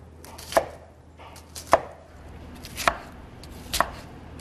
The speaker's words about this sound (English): Next, we're gonna chop up some onions.